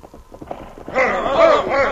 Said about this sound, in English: Look, here comes three men on horses.